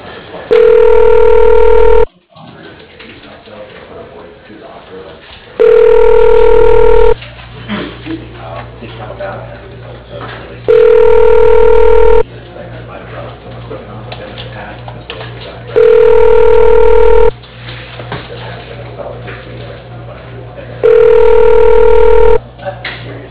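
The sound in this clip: A telephone ringback tone sounds while a call is transferred: five evenly spaced, loud rings about five seconds apart, with quieter, softer background sound in the pauses between them.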